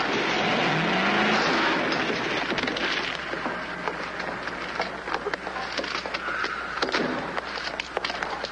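A car driven recklessly, its engine revving and roaring through a steady wash of road noise, with short squeals and rising whines over the continuous rumble.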